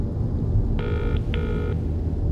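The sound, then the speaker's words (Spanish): Ringback tone of an outgoing phone call: two short electronic ring bursts in quick succession, steady and mid-pitched, over a constant low hum. “Llamar a María Urriaga. Llamando a María Urriaga.”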